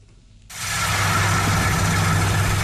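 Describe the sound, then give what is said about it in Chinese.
A large combine harvester works through a rapeseed field in a village in Huangshan, Anhui. Its loud, steady mechanical roar cuts in abruptly after half a second, carried over a low droning hum, with no voices. “在安徽黄山市歙县镇村镇梅村的油菜田里，大型收割机正开足马力穿梭作业，一笼笼油菜被快速卷入机身”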